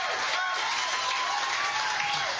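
Audience applause and cheering welcoming a performer to the stage at a blues show in St. Elmo: a dense, steady wash of clapping and shouts that holds at a constant loudness for the whole stretch.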